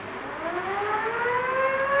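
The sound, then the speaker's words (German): An icebreaker's ship siren sounds a steady, loud, continuous wail with a slowly rising tone, alone and sustained throughout the short stretch. “Sirene! Das ist der Krassin!”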